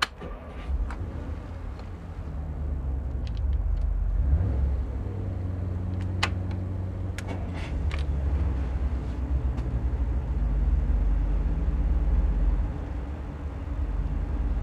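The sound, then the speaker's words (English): Late-1950s Chrysler Hemi V8 gasoline engines running together in a loud, steady, deep rumble, with faint ticking on top and no talk. “What are we hearing here? Oh, these are Chrysler Hemis, gas engines. They're V8s from the late 50s.”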